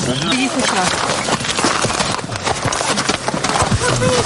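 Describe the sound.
A horse's hoofbeats thud in a steady walking rhythm during a hippotherapy riding session. The dense clopping continues under background voices throughout.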